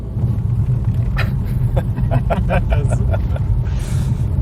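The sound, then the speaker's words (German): Car rolling along an old, unpaved village road, a steady low rumble of engine and tyres filling the whole stretch, with faint rattles and bumps over the surface and people talking quietly inside the vehicle. “in Lindenberg angekommen und man hört, wir fahren jetzt auf eine Dorfstraße”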